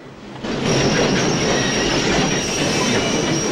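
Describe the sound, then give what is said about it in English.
A train pulls into a station with a loud, steady rolling rumble and a thin, high wheel squeal running throughout, swelling in within the first half second. “The 8 o'clock train pulls into the station.”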